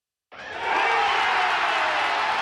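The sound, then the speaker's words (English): Baseball fans at Truist Park roar at the final out of a Braves win over the Philadelphia Phillies. A broad cheer bursts in suddenly and then holds loud and steady to the end. “That's the sound of fans at Truist Park celebrating the final out of last night's Braves win against the Philadelphia Phillies.”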